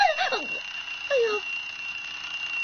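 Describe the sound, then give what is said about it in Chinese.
An alarm clock rings in a 1987 animated TV series, a steady high-pitched ringing tone that holds throughout, with short falling tonal swoops near the start and again partway through. “哎呀为什么我拎着个闹钟的？”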